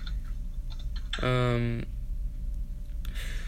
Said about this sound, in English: Type in like famous names.